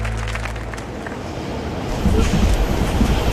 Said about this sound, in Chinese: 火车站，